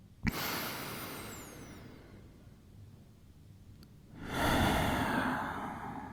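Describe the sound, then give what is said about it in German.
A deep breath in and out during a guided meditation: a sharp-starting inhale that slowly fades, a quiet pause, then a longer, fuller breathy exhale, with no talk. “Und noch einen tiefen Atemzug und fühl ihn im Körper.”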